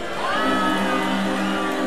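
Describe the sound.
Festival crowd cheering at Tomorrowland, a dense, steady roar of voices that stays loud and unbroken for the whole stretch.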